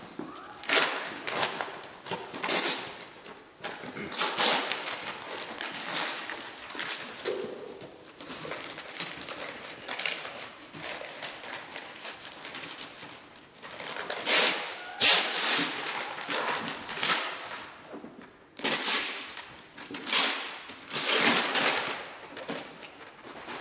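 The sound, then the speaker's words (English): Brown paper wrapping is ripped off a gift in many loud, crackling tearing bursts, some long and some short, coming in quick uneven bouts with brief pauses between them. “I wrapped it nicely with brown paper, and my wife thought some other decorations should be added. It added to the gift. So go ahead, rip it open.”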